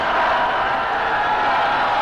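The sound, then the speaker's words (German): Crowd cheering as the population of Berlin greets President Kennedy in 1963, heard as a continuous, loud, even roar with no distinct breaks. “die jubelnde Bevölkerung.”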